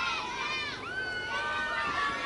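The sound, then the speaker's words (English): Children cheering and yelling in the stands at a baseball game: a steady stream of high-pitched, overlapping young voices rising and falling in pitch throughout. “You can hear the kids out there having a good time.”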